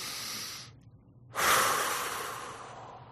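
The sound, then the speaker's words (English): One deep breath drawn in: a loud, airy rush of air starts abruptly after a brief quiet gap, then slowly tapers over the next couple of seconds, with softer breathy noise before it. “To do this, take a deep breath”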